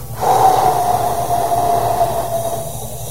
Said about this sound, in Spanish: Ahora exhala por cuatro por la boca.